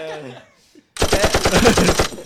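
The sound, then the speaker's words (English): A loud burst of gunfire plays as a sound effect, with many rapid shots in quick succession lasting over a second. A short stretch of voice comes before it, then a brief silence. “Gunshot.”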